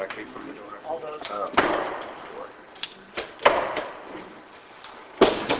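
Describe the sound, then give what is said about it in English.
Door noises: a few sharp thuds and bangs stand out over a low, continuous background murmur. “No, I think it's just the door.”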